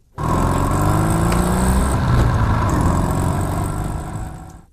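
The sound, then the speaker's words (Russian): A motorcycle with a sidecar starts abruptly. Its engine then runs loud and steady with a deep, rumbling drone for about four seconds and eases off slightly at the end. “Бросил сверток в люльку, передернулся еще раз и завел мотоцикл.”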